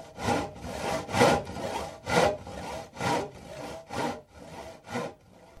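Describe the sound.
A metal file rasps in steady back-and-forth strokes. Many harsh, gritty passes follow in an even rhythm, with stronger pushes alternating with lighter returns, and no voices.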